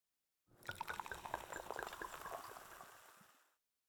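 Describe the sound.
Liquid being poured into a glass: a faint, bubbly gurgling pour that starts and stops cleanly and lasts about three seconds, alone without voices.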